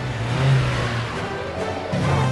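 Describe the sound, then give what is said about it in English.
A van engine revs hard as it climbs over a bridge on treacherous roads, a steady mid-pitched drone that fades briefly partway through before surging again, with no voices. “The van makes it over the top of the bridge.”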